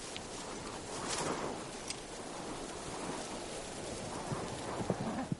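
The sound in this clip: Hoofbeats of horses carrying riders across desert dunes in a medieval adventure film, a steady soft clopping under a wash of noise, growing slightly louder and sharper toward the end.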